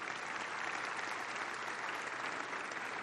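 A church audience applauds to welcome a guest: dense, even clapping that stays steady at full strength throughout.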